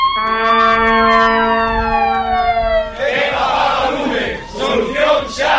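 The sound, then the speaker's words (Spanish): Fire engine sirens from a firefighters' video in Vigo wail loudly, the tone sliding steadily downward for a few seconds, then give way to loud, rough, noisy bursts. “Este es el sonido de un pequeño vídeo de los bomberos de Vigo”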